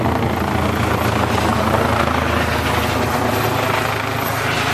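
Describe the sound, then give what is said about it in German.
Helicopter landing nearby, an emergency medical helicopter arriving at a polo tournament with sheep grazing close by, giving a loud, steady rotor and engine drone that holds evenly throughout with no pauses. “Die landen jetzt hier mal eben. Hubschrauber. Hub, Hub, Hubschrauber-Einsatz.”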